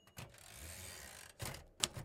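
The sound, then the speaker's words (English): A few sharp mechanical clacks of typing on a 1960s Royal typewriter, faint and widely spaced, with a soft steady hum between the keystrokes. “but it's me typing. It's not a sound effect I bought or anything. Note to self. Remember to get ribbon for Mom's 1960s Royal.”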